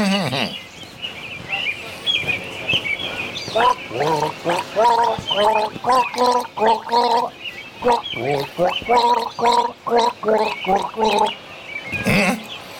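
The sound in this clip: Gargled tune from a person gargling a sip of liquid in the throat, a rhythmic run of many pitched, bubbling notes that rise and fall like a melody, fairly loud and heard alone after a short opening gurgle.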